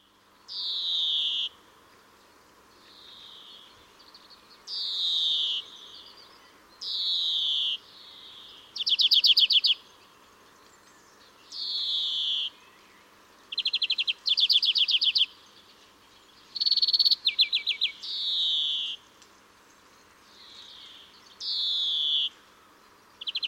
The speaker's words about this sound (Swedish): Och grönfinken finns ju hos oss hela året. Några kanske flyttar, men har väldigt speciellt läte, och jag tycker att det är den fågeln man nästan tidigast hör på våren.